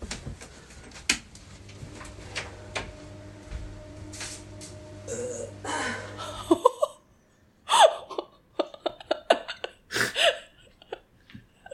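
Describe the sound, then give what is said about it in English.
A small, sad-sounding burp at the end of a late-night bout of short, hiccup-like gulps and breaths, with uneven bursts and a brief near-silent gap partway through. “And then it's just that really sad little burp at the end.”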